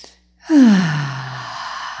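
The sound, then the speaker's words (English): A deep breath in through the nose comes after a short silence, rising suddenly to a loud, airy rush that tapers off gradually over about a second and a half. “Take a nice breath in.”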